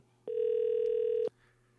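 A telephone ringback tone heard while calling a listener: one steady, mid-pitched buzzing tone that lasts about a second, then drops to near silence.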